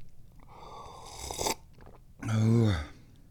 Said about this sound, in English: Number one, drink some tea.